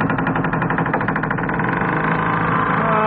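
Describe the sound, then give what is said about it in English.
A metal hinge, soaked with lubricating oil, creaks as it is worked back and forth, giving a loud, continuous run of rapid, rhythmic squeaking pulses with no talk over it. “help the lubricating oil soak in between the layers of metal by working the hinge back and forth a few times”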